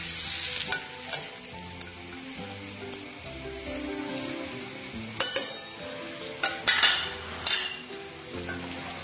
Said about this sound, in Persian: خب خب الان سرخ شده، من داخل یه قابلمه موادمو می‌ریزم.